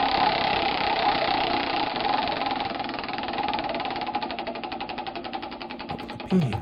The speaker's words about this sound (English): Let's give the wheel some more chances to stretch its legs. Sure. Okay. All right, let me spin this one.